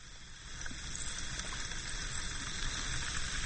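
Effervescent vitamin C tablet fizzing as it dissolves in a glass of water, a soft, steady bubbling hiss that carries evenly and faintly throughout.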